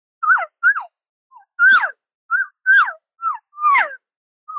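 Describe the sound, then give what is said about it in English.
A human voice imitates a calf call with many short, higher-pitched bleats. They come in quick succession, and each one falls in pitch. A few are fainter than the rest. “And then when I'm talking about calf sounds, I get a little bit more frequent with that sound, but also it's a higher pitch sound.”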